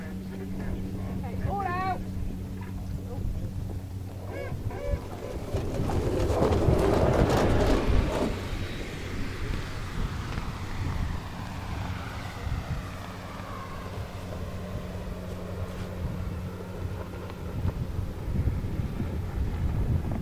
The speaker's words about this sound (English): Here's something I haven't seen before, and that's the launching of a motor glider.